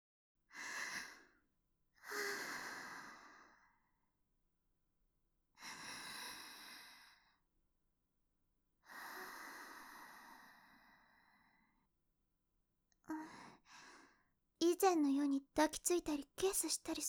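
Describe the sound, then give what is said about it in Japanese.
A person takes slow, deep calming breaths: four long, quiet, breathy inhales and exhales separated by pauses, then a few shorter breaths and a quick burst of brief vocal sounds at the end. “落ち着かないといけませんね。深呼吸、深呼吸っと。”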